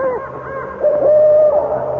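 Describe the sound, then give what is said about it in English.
An owl hoots, first with a few soft, wavering tones and then a steadier, louder sustained hoot that trails off slightly. It is heard alone, without talk over it. “It is just an owl.”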